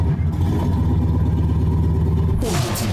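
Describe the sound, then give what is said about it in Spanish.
A car engine, started with the key, runs with a steady low rumble, then a louder burst of noise comes near the end. “Gira la llave y enciende el motor.”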